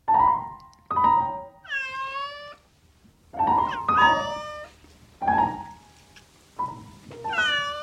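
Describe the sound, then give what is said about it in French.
A borrowed kitchen cat, kept at night to hunt mice, meows over and over in drawn-out, high-pitched calls that bend in pitch, separated by short pauses. No voices are heard. “Cette nuit, j'ai eu pour une fois un petit compagnon. Le chat de la cuisine que j'ai emprunté pour qu'il détruise quelques souris.”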